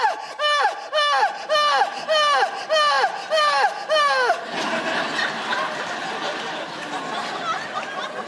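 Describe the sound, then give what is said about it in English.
A voice imitates loud, melodramatic Greek tragedy-style crying with a rapid series of wailing sobs, each one dropping in pitch, before giving way to a few seconds of noisier, broader sound. “We also all have the same way of crying. This, like, very loud, melodramatic way of crying that I like to call Greek tragedy crying. And it sounds kind of like this.”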